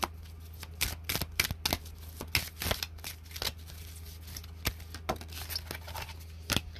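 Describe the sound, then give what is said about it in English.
Tarot cards being shuffled, with cards flipping out of the deck: a brisk run of papery riffles and sharp snapping flicks in uneven bursts. “One card flips out, another one, oof, and two more.”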